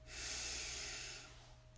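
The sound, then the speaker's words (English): One deep breath during a guided meditation: a long, airy, breathy rush that swells quickly, holds steady, then fades into quiet, with no talking. “We begin by taking three deep breaths together. Let's breathe in and out.”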